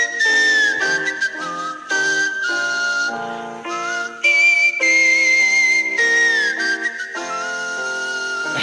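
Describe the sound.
A person whistles a melody in long, steady tones with smooth gliding bends, holding the tune almost continuously at a loud level for the whole stretch, with brief dips between phrases.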